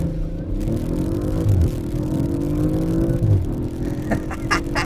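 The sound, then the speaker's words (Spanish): A car with a dual exhaust revs hard and accelerates during a test drive. Its steady engine note climbs in pitch and drops back at a couple of gear shifts. “también tienen un escape dual muy interesante con una nota, híjole, que está increíble. Ojalá lo alcancen a apreciar.”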